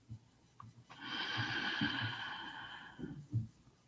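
One deep, slow inhalation is drawn steadily through the airway for about two seconds. It is fairly faint, with a few soft low thumps around it.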